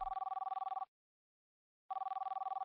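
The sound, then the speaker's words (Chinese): An unanswered telephone ringback on an international call to a home landline in Beijing: two bursts of a steady buzzing ring separated by about a second of silence, fairly faint and alone. “无人接听的声音一直在持续”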